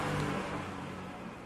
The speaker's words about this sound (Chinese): 有摩托车一直是有点吵，不知道会不会录进去